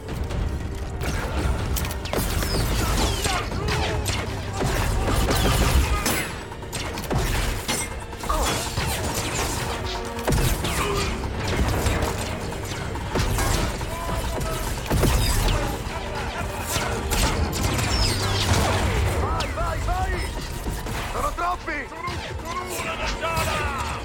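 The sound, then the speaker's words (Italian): A droid self-destruct sequence in a Mandalorian audio drama: dense mechanical whirring, ratcheting and crashing clatter runs continuously throughout, while voices speak over it. “Avvio la sequenza di autodistruzione. Wow, che fai? Il protocollo di fabbricazione impone che io non venga catturato. Mi autodistruggo.”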